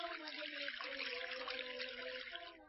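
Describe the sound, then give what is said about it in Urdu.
Water runs from an opened tap while both hands are rinsed, a faint, continuous splashing hiss with steady flow that tapers off at the very end. “اب اس کے بعد نل کھول کر دونوں ہاتھوں کو دھوئے”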